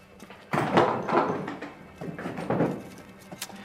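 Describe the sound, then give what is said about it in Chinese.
A cabinet door being opened, heard as a few faint wooden thumps and rattles in two clusters, followed by a light click near the end. “去把那柜子打开。”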